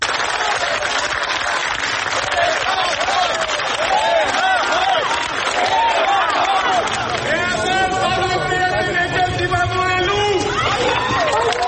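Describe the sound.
A gathered crowd outside an arrival hall claps and calls out to the departing Catholicos, a dense, steady wash of applause with many overlapping shouting voices that continues throughout.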